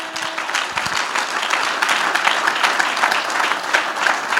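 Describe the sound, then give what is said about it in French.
A French-speaking church audience breaks into dense applause during a sermon, many hands clapping in a continuous, fairly loud patter that stays even throughout. “Est-ce que quelqu'un peut acclamer le Seigneur ce matin?”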